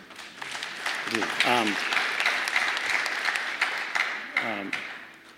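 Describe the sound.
An audience claps through a live talk, a dense, steady wash of applause that holds at a fairly even loudness from start to end, with a couple of brief voice sounds cutting through.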